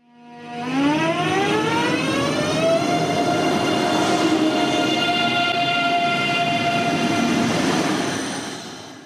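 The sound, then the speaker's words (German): German ICE high-speed train pulling away: a loud electric whine of several stacked tones climbs in pitch over the first few seconds, then holds steady over a broad rolling rumble before easing off at the end. “Das ist das Geräusch eines anfahrenden ICE, möglicherweise ein ICE 3 oder 4.”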